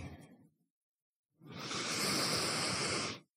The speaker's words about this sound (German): Atme direkt noch ein bisschen tiefer ein und aus.